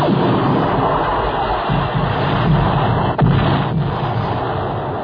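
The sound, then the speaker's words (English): Missiles explode in a chain reaction above the atmosphere, a dense roaring rumble of blasts that runs throughout, with one sharper burst a little past the middle. “Getting a chain reaction, sir. Missiles destroying each other. We must destroy every single missile.”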